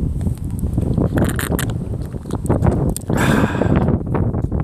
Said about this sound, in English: The wind's blowing pretty hard, so sorry about that. I'm going to try and angle the mic the best I can to be blocked by the wind.